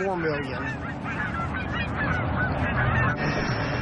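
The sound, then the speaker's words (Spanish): Resident Canada geese honk continuously, many overlapping nasal calls from a flock forming a dense, steady, fairly loud chorus with no clear pauses. “Ha aumentado el número de gansos de Canadá, que son residentes, no aves migratorias.”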